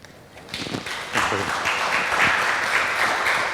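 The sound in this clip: Applause from a conference audience welcoming a speaker to the stage, beginning after a brief pause and swelling into dense, sustained clapping that holds to the end.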